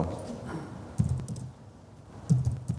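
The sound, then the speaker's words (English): Typing on a computer keyboard, a sparse scatter of soft key clicks with a couple of heavier thumps, fairly faint and without speech. “you can just keep typing and adding things on very easily, so it's very quick to create”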